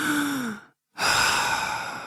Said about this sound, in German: 1, 2, einatmen, ausatmen.